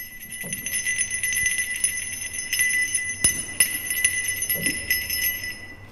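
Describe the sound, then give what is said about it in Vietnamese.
Bell ringing out over a graveyard, a steady, bright metallic ringing that holds through the whole stretch with a faint shimmer, alone with no voices. “Tiếng chuông bay vút lên cao, tiếng chuông lan tỏa toàn bộ khu mộ cao quán. Thoáng nghe qua giống như là tiếng lục lạc gọi hồn vậy.”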